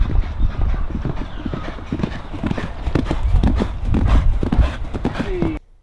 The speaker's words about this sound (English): He's doing a bit of a canter this morning. Yeah, he is. He's he'll trot past here and then he'll come up the sand gallop strip there.